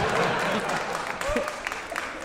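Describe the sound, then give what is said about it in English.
Lacklustre applause from an audience at a comedy show, a thin, scattered patter of clapping that stays fairly quiet and even for a couple of seconds. “Your lacklustre applause is noted.”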